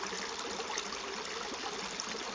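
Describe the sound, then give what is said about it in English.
A small, clear stream flows steadily, making a continuous gentle trickling and babbling wash with no voices over it. “That's why I'm sitting by the clear water of that little stream that is constantly cleansing, rejuvenating,”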